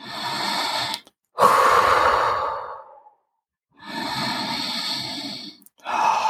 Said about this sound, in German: Atme zwei, dreimal ganz tief ein und aus.